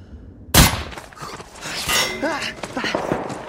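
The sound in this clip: A single gunshot, fired at a running man and missing him, cracks out loud and sudden, followed by a stretch of busy, scrambling noise.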